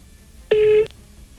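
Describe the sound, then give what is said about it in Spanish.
A telephone call's ringing tone sounds as a single short, steady electronic beep at one pitch, rising suddenly out of faint background hiss and stopping cleanly. “Vamos a intentar otra vez. Amigo, te estoy llamando.”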